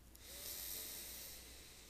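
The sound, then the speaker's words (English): A slow, deep inhale through the nose during a guided breathing exercise, heard alone as a soft, faint, airy hiss that swells and then eases slightly. “Taking a deep inhale in through your nose.”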